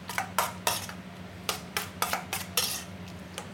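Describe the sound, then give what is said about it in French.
A spoon clinks and taps against a small bowl while creamy samphire sauce is mixed for a shellfish tartare. Many bright, irregular clicks sit over a steady low hum. “Donc là, après, on prend le crémeux. On mélange. crémeux salicorne. Crémeux salicorne.”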